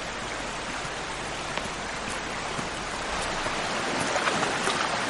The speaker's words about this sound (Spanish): la ribera rocosa de un río de aguas transparentes